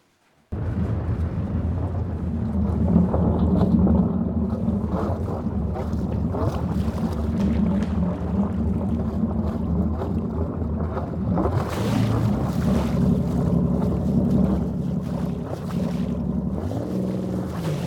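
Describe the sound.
A small boat's motor runs on the water, a steady low droning hum with a rough mechanical texture, joined by wind buffeting that grows noisier partway through.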